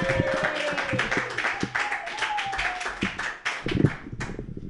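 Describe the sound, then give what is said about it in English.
An audience claps for a comedian at a stand-up comedy show. Many quick claps blend into a dense, steady patter of applause, with some voices cheering over it. “Put your hands together for Courtney. Yay!”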